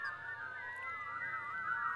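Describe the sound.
A person whistling a wavering tune, the notes gliding up and down in a steady, fairly faint stream with no talking.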